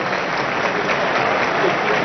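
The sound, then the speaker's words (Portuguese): A football crowd applauds a player as he leaves the pitch. The clapping is dense and steady throughout, a continuous wash of many hands with no break. “O Ítalo sai aplaudido também.”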